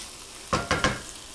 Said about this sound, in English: All right, so I'm stirring the onions again, just because I happen to be standing here.